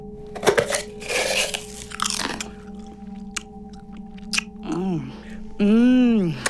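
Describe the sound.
Crisp potato chips being bitten and chewed, loud crunchy bites at first, then softer chewing, followed by wavering, voice-like pitched sounds near the end.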